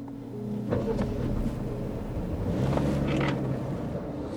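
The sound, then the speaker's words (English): A car drives along a road through southeastern Kentucky, giving a steady low engine and road rumble with some wind noise. The sound is continuous and fairly faint, with no one speaking. “We're driving through southeastern Kentucky.”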